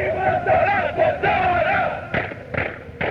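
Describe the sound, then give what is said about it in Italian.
A group sings a marching song in unison, a full crowd of voices, followed by a few heavy thumps of stamping feet near the end. “Qui si canta mentre si cammina, sicuramente, perché questa è una marcetta che loro fanno marciando, battendo i piedi, più che altro trum trum si sente il rumore.”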